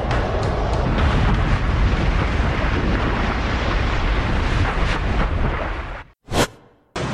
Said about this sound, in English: The 100-ton cover of the reactor suddenly blasts into the air. An ultra-powerful stream of radioactive vapor releases uranium and graphite over hundreds of meters around the plant.